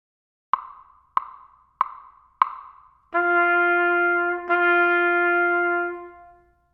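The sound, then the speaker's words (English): Musical half notes in 4/4 time after a one-measure count-off: four crisp, evenly spaced clicks, then two sustained tones on the same pitch, joined by a brief dip, before the sound fades. “Half notes sound like this.”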